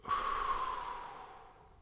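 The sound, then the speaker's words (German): A single deep breath drawn in and let out during a guided relaxation exercise: a soft, airy rush that swells quickly, then thins and fades slowly over about two seconds, with no talk. “Tief einatmen. Und ausatmen.”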